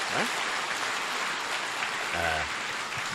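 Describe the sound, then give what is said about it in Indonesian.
Audience applause at a business talk, a dense and steady wash of clapping that stays loud throughout. “Anda semua bertepuk tangan karena tidak memikirkan penderitaan saya saat itu.”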